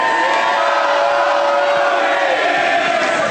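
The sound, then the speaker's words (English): A live audience at a show cheers loudly, a sustained roar of voices with whoops and shouts that stays strong and steady from start to finish. “You guys weren't entirely together on that. Some of you thought, oh, this is the part where we cheer, and others knew to do the song.”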